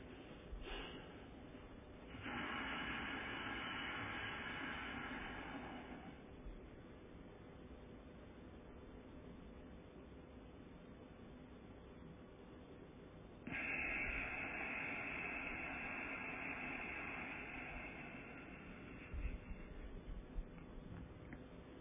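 Slow, meditative soham breathing before meditation. Two long, airy breaths of several seconds each are heard, separated by a quiet pause, with faint hiss throughout.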